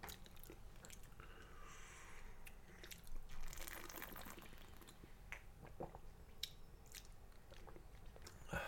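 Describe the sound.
Someone bites into and chews breaded, butter-fried herring, giving soft, quiet crunches and wet chewing sounds, with no talk over them.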